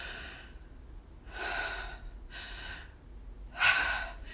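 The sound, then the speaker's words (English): Quiet, breathy gasps made by a voice imitating someone who cannot catch their breath during an anxiety attack. A few sharp intakes come roughly a second apart, and the last is the loudest, with no talking between them. “I just was having these anxiety attacks where I couldn't catch my breath. And I'll try to model it for the listeners”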